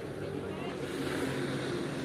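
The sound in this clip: A jet ski runs on a lake, giving a steady, faint engine drone with broad rushing noise that holds at an even level throughout, while a man talks.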